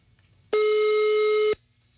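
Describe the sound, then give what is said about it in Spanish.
A phone call goes through to voicemail: a single steady electronic tone, loud and alone, lasting about one second between quiet stretches. “Correo de voz.”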